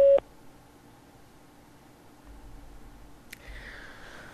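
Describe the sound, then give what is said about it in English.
A single short electronic beep from a phone system's voicemail recording prompt: a steady mid-pitched tone that cuts off abruptly. Near silence follows, then a faint click and soft noise near the end. “Record after the tone. Hit any key when you're done.”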